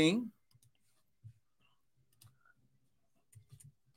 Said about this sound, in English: I'll type it right here.